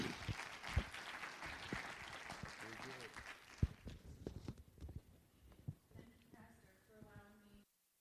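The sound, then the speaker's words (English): An audience applauds to welcome a speaker to a Bible study, a dense clatter of clapping that fades out before a voice begins speaking. “Give a good hand of appreciation and welcome as Casey comes to teach our Bible study tonight.”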